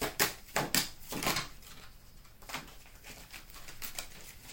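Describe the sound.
Soft, papery snaps and taps of playing cards being drawn and laid out, a few sharper clicks early on followed by fainter, scattered rustles, quiet and without talk.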